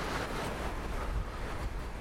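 Strong wind blowing at about 37 to 65 km/h: a steady, broad, rushing roar that fills the whole clip with slight swells, fairly faint, with no voices.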